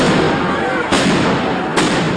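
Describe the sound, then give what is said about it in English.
Police fire tear gas canisters at protesters: two sharp bangs cut through a loud, dense wash of noise. “Police fired tear gas as people ran for cover.”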